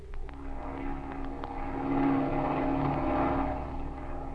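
An airplane engine drones steadily while the plane circles overhead, a continuous low hum that swells slightly partway through, with no voices.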